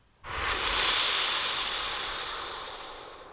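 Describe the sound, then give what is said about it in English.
A long, forceful breath during a guided breathing exercise: one steady, loud rush of air that sets in abruptly and then slowly fades over about three seconds. “Three breaths now. Big inhale and blow.”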